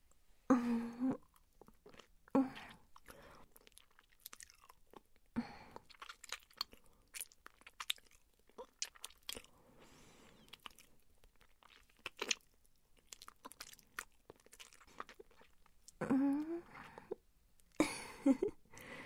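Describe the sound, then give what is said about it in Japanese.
Quiet chewing and crunching as someone tastes food, in short intermittent bursts with long near-silent gaps in between. “味見してるのよ。”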